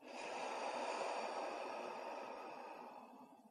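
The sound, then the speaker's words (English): One slow, soft breath in and out, airy and quiet, swelling and then gently fading away. “Do that one more time. Breathe in and out.”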